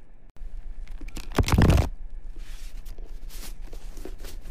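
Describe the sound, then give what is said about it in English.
Papery riffling and crunching come from a stiff tarot deck being shuffled, with one louder, dense burst of card noise amid steady soft rustling. “I'm supposed to shuffle the cards. These are a lot harder to shuffle than a playing deck”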